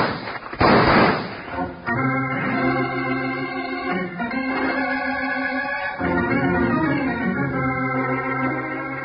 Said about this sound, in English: Stay here and shoot high to keep him interested.